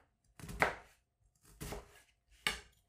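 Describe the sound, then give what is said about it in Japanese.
A knife finely minces onion for fried rice: three quiet bursts of rapid chopping, separated by short pauses. “切っていきますよ。まあ、みじん切りなんでね。”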